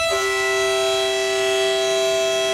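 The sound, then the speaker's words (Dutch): A blunt-nosed locomotive with an inward-sloping windscreen arrives, giving a loud, steady, horn-like tone that holds unbroken for the whole clip over a low rumble. “Daar is die. Stompe neus. Het is die locomotief met een voorruit die naar binnen staat.”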